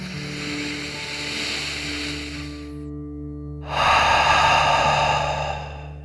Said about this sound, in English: So let's take one final deep dragon breath in and out.